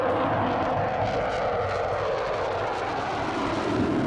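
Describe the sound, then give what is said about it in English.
Fighter jets flying overhead give a continuous, broad roaring rumble that holds steady and loud, with no clear rise or fall across its few seconds. “Well, that's the sound of fighter jets”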